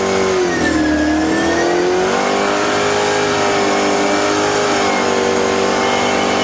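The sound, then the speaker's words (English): A race car engine revs as a racing champion drives off with a passenger near Charlotte: a loud, steady mid-pitched roar whose note dips briefly, then climbs and holds throughout. “The day we met them outside Charlotte, Joey took Gavin for a spin.”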